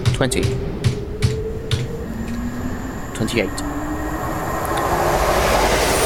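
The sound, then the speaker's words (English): Another train passes in a train simulator video game: a broad rumbling rush that swells steadily louder toward the end, with a few faint clicks near the start. “That's the sound of another train passing me.”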